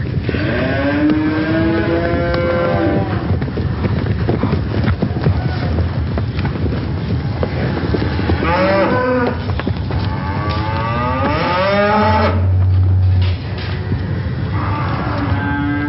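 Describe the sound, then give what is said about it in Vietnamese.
Cattle bellow during a stampede, with many long, wavering moos overlapping one another above a dense, continuous rumble that stays loud throughout. “tiếng vó nệm xuống đất và tiếng kêu bi thảm của lũ bò hòa trộn làm một, váng trời dậy đất đổ dồn về phía chúng tôi.”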